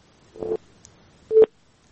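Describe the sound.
A telephone call disconnected tone sounds as two short, flat electronic beeps separated by a brief gap, fairly faint and heard alone.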